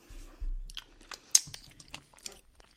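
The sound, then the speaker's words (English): Biting and chewing a gingerbread-flavoured treat: a faint soft bite, then a few crisp crunches, with one sharp crunch standing out, followed by quieter moist chewing alone. “let me take a bite because it smells great.”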